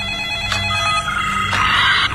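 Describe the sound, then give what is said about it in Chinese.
A telephone rings with an incoming call in a drama scene. The ring is a steady, bright electronic tone that repeats in short pulses and runs the whole time, with no voices. “原来是维多利亚给马文打来了电话。”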